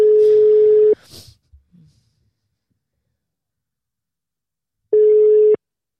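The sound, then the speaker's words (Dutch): A telephone ringing tone plays as a call is dialled. There are two steady mid-pitched beeps about four seconds apart: the first lasts about a second, and the second is shorter and cut off. Faint rustling follows the first beep. “Ja, we gaan even bellen.”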